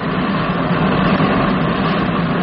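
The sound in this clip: Compressors on a spacecraft run flat out as a loud, unbroken roar of machinery with a heavy low rumble, steady and unchanging throughout.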